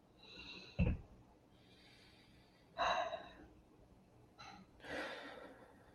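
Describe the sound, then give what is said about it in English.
Slow deep breathing during a guided relaxation exercise: a few soft, airy inhales and exhales, quiet and spaced apart, with no talking. “So I'm going to ask that we take some space here to do another deep breath”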